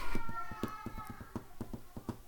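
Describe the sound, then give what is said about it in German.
Hands tap a driving beat on a desk: many quick, fairly quiet knocks in an uneven rhythm, sounding alone without talk. “Und er wird uns einen treibenden Beat in den Hintergrund klopfen, damit wir die richtige rhythmische Untermalung haben.”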